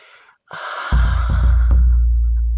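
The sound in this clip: A person takes a deep, breathy inhale over freshly ground spices in a mortar, a long draw of air joined partway through by a low, steady droning tone.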